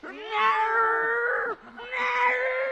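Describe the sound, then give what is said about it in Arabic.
Two long, wailing meows from a cat in a dramatised tale of a man turned into a cat. The first is drawn out for about a second and a half, the second shorter, both loud and plaintive with no talk over them. “حول هذا اللئيم إلى قط. قط، قط.”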